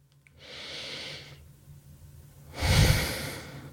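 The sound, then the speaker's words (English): A guided deep breath: a long, soft inhale of about a second, a pause, then a louder, breathy exhale, with no words spoken. “So take a moment now, pause, take a deep breath with me.”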